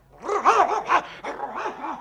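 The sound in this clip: A dog barks at a ship's cook it cannot stand: a quick string of loud, harsh barks with strong harmonics, steady in rhythm and heard alone without talk.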